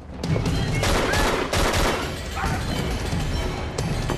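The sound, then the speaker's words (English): Pistol gunshots during a shootout with police in a corridor: a few sharp, loud cracks break through dense, noisy clatter and rumble. “In his right hand, he holds his pistol. He emerges and shoots one of the police.”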